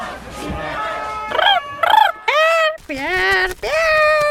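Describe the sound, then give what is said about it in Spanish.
A pet parrot squawks loudly in a series of several harsh, harmonic bursts with bending, swooping pitch, separated by short gaps. “Ay, perdón por el loro, es un poco insoportable.”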